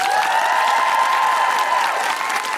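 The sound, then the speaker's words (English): Steady applause with some cheering from a live audience at the close of an evening stage show, continuous and even throughout. “A big round of applause to the wonderful Dr. Anne-Marie Imafadon”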